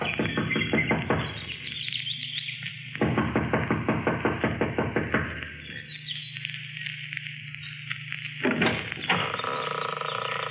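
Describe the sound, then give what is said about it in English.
Impatient knocking on the front door of a small mountain lodge comes in several bursts of rapid, repeated raps separated by pauses. The knocks are fairly loud and heard alone, without voices. “runs up the steps of the lodge to the front door. She knocks impatiently, looking about anxiously.”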